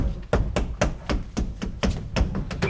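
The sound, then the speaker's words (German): Knocking on the back wall of a wardrobe: a steady series of many sharp, hollow knocks at an even, fairly quick rhythm, each a short punchy hit, with no voices. “Halt mal, klopfen Sie die Rückwand des Schrankes ab”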